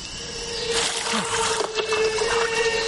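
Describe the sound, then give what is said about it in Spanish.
Water splashing as it is poured over hands and a head: a short burst of broad, rushing splatter that builds after a moment and continues to the end, over a steady low hum. “se echa agua en las manos y sobre la cabeza”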